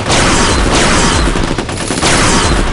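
Heavy gunfire in a rainforest jungle firefight: a loud, dense, unbroken barrage of shots and booms fills the whole clip.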